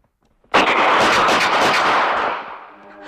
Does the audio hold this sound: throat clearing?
no